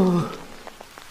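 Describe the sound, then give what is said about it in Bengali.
Rain patters softly and steadily, with faint scattered drops tapping through a low hiss for about a second. “বাঁচলাম আরে বৃষ্টি”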